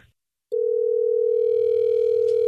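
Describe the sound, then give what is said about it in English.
Telephone line tone as radio hosts call someone: after a brief silence a steady, unbroken tone comes in at one flat pitch and holds to the end, with no voices. “Are you ready for us to get her on the phone?”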